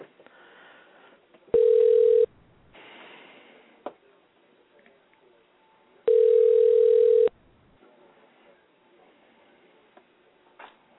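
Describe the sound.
Telephone tones on a call to a hospital emergency department: two long, steady, loud tones a few seconds apart, with faint low background noise between them.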